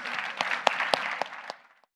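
Audience applause welcoming a panel onto the stage: a moderate patter of clapping with a few sharp claps standing out, dying away after about a second and a half into silence.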